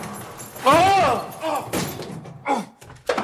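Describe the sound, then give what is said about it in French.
Dull thumps of a locked broom cupboard door being tried: a few knocks and rattles at irregular moments, with a voice crying out at the same time. “Ça, c'est une porte de placard. Tiens, il est fermé à clé.”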